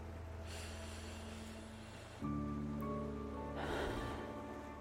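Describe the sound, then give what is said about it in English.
A slow, deep breath drawn in and let out: two soft, airy swells over a faint steady low hum, quiet throughout with no talking. “So we'll take three deep breaths.”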